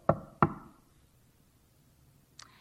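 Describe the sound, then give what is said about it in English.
Two sharp knocks on a door, close together and evenly spaced, ring out, then comes a quiet pause and a faint, higher tap at the very end. “Ah, but others of us hear a knock on the door.”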